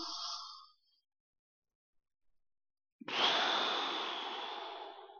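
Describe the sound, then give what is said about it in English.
Deep breathing to calm down. A short breath is followed by silence, then a long, steady, airy exhale of about two seconds. “I'm going to breathe.”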